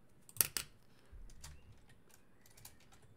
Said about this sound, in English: I can even type that right now.